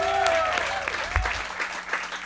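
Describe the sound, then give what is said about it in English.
Studio audience applause at the close of a live music session in a radio studio, a steady patter of many hands clapping at moderate loudness, with a few sharper individual claps standing out. “please give a big round of applause for her”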